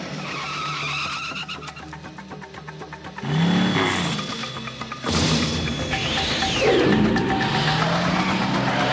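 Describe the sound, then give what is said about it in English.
Kaneda's motorcycle from the 1988 anime film Akira roars with a whirring, revving engine whine that sweeps up and down in pitch, mixed with screeching tire skids. “Because I think the sound of Kaneda's bike is very, ooh, yeah, very cool. Like, the bike is so cool.”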